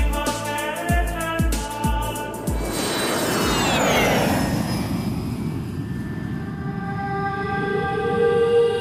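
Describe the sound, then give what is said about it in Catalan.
An airplane in flight to Formentera roars with a broad, steady engine rumble and whoosh that swells and then holds, after a short run of bright musical tones with sharp percussive hits at the start. “Estàs escoltant... El primer vol a Formentera.”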